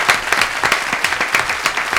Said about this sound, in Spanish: vamos a darle un aplauso a DJ Gonz